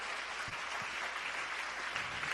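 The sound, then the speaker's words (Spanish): Church audience applauding during a worship service, a steady wash of many hands clapping at a fairly low level, with a few soft low thumps mixed in and no voices. “Denle un aplauso a Jesús en esta hora.”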